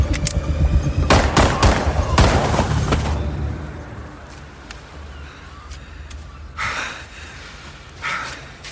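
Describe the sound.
Gunfire from a handgun during a tense armed confrontation: several sharp, loud shots crack in quick succession in the first few seconds, then fade into a quieter, noisy tail with a couple of softer thumps.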